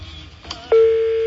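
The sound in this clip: A telephone is dialed: a few brief electronic blips, then a steady single-pitched tone that sounds clearly and holds unbroken to the end.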